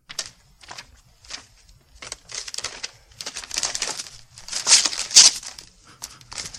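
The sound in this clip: Magazine pages flipping and ripping apart: irregular bursts of crisp paper rustling and crinkling, building to louder, harsher tearing near the end.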